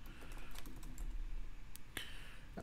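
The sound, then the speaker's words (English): Fast typing on a computer keyboard, a quiet, continuous clatter of many rapid keystrokes with a few sharper key hits, no voices. “So I'm trying to type fast.”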